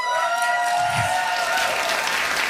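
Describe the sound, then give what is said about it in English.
A live audience cheers and applauds in dense, steady clapping mixed with crowd noise, holding loud and even from start to finish. “If you have ever been on Now or Never, make some noise.”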